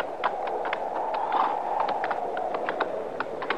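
A horse with a bad leg is walked out in open country, its hooves clip-clopping in many light, uneven knocks over a steady background hiss.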